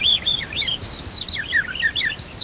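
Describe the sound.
People whistle an imitation of bird song: a quick string of high, bright chirps and warbling trills in irregular bursts, without a pause.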